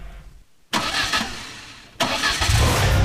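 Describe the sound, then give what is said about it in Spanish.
A car engine starting up: a sudden burst of mechanical noise, a brief easing, then a second louder surge as a deep, steady rumble builds and holds through the end. “Hay un motor que está por encenderse.”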